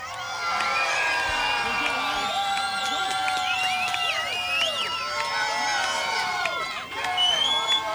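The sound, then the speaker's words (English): Loud audience cheering for a decibel-meter vote at a contest, with continuous whoops, shrieks and shouts piling over one another in a dense, sustained roar. “want you to make noise, and that is going to be the measurement that we're going to take on the decibel meter to find out who our winner is here tonight.”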